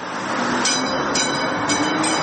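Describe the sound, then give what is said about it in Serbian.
A replica of Sarajevo's first electric tram, from 1895, rolls along the city's rails with a steady, dense rumble and rattle, punctuated by a few brief, high, squeaky accents. “Replika prvog električnog tramvaja iz 1895. godine ponovo je na šinama grada Sarajeva.”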